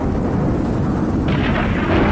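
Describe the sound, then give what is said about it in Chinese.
Rolling thunder rumbles over the city of Leizhou on an early-winter afternoon, a loud, unbroken low roar that fills the whole stretch without a clear single crack. “初冬的午后，阵阵雷声又在雷州城上空响起。”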